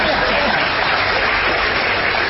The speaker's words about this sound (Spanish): ¡Vamos! ¡Que aplauden!